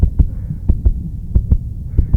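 Heartbeat of a shop worker after being attacked: fast, heavy lub-dub thumps repeating in quick pairs, loud and low-pitched with a faint steady hum underneath.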